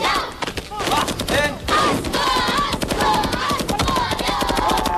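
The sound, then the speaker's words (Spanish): Automatic weapons fire in rapid bursts of many sharp shots that run almost without a break, with loud voices calling out over the gunfire. “Me ha pegado un tiro, macho.”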